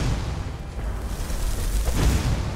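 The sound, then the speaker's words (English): A fireball spell explodes in a video game as it strikes a troll, producing a heavy, continuous low rumbling roar with a crackling burst texture that stays loud throughout. “You know, you can't get sneak attacks with a fireball, right?”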